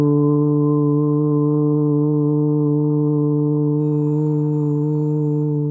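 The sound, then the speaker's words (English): A voo chant, a long vocal breathing chant: a single deep, steady voice drone held for nearly six seconds, rich in harmonics and even in loudness from start to end. “The next method is called a voo chant. And I love this practice because when we chant, we actually create vibrational resonance in our body. This chant sounds like this.”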